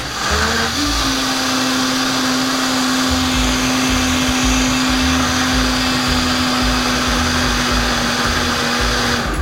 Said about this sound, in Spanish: Le estoy agregando un poquito más de caldo porque está muy espeso. Para que se pueda licuar bien. Vamos a licuar otra vez.